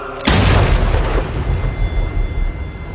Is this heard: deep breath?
no